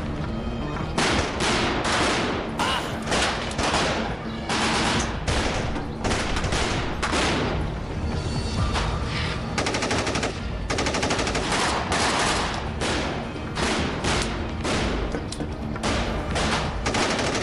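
Machine-gun fire in repeated bursts during a firefight in an orchard: loud rapid cracking volleys with brief gaps, continuing throughout.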